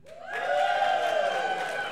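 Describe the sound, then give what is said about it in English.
A crowd at a Renton gathering cheers for the 8th congressional district, a sustained mix of shouts and whoops that swells in after a brief lull and holds steady. “Okay, how many for 8th? Give me a cheer.”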